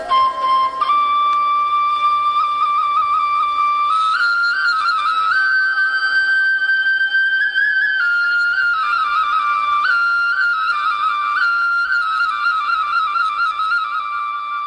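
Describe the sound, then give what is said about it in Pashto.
A shepherd plays a shpelai flute while leaning against a big rock: a continuous, reedy melody that moves in steady steps between held notes, loud and unaccompanied, with no talking. “خو د دغه رمې شپونکی بیا دلته یوې لویې تیږې ته ډډه لګولې او شپېلۍ ژغوي.”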